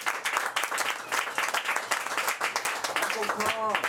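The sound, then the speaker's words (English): Audience applause welcoming an artist, actor and poet to a literary reading: dense, steady clapping from many hands fills the whole stretch at an even, fairly loud level, with a voice starting to speak over it near the end. “So give him a welcome hand.”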